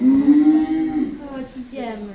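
A cow moos once in a long, low, droning call that wavers slightly and tails off softly at the end.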